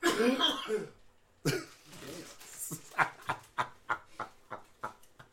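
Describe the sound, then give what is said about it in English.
Someone gags and coughs after taking the whole mouth over a soda can. A harsh burst of retching opens, followed after a pause by a long string of short, sharp coughs and throat-clearing sounds. “Well, nobody told you to put your whole mouth on the fucking soda. You gagging the can.”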